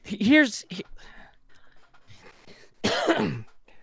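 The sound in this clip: Harsh coughing comes in two bursts, one near the start and a louder one later, with quieter throaty vocal sounds between them.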